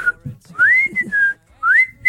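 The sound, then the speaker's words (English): A person whistles a few short phrases, each gliding upward in pitch and then holding a bright, steady tone. The whistling is clear and fairly loud, with brief gaps between phrases. “You can't just whistle for everything.”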